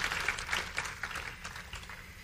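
Applause from a church audience welcoming a pastor to the stage: a soft, steady wash of many hands clapping that carries on without a pause.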